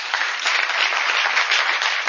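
An audience breaks into a round of applause, producing a continuous, dense wash of many hands clapping at a steady level with a slightly thin, narrow tone.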